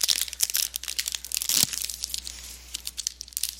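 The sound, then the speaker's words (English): Foil wrapper of a trading card pack crinkling and tearing open, a rapid string of sharp crackling rustles with a louder rip partway through, no talk. “All right, then I will open my third and final pack.”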